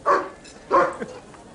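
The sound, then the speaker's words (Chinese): Two loud dog barks at the doorway of a newly opened tavern, short harmonic bursts spaced about half a second apart. “恶狗挡门，我进不去啊。”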